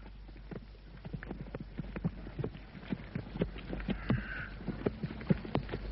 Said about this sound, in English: You were watching me just now when we were cantering.